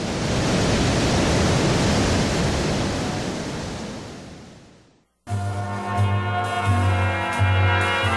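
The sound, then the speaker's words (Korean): Niagara Falls roars from the Canadian side, a dense, steady rush of churning water that slowly fades away before music begins. “나이아가라 폭포.”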